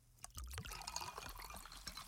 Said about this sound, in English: crack open a Pepsi.